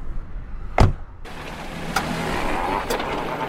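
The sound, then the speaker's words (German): Someone getting into a car: a sharp thud, then a steady low car-interior hum with two softer knocks. “Ich kann Sie nach Kilchberg fahren. Kommen Sie, steigen Sie ein.”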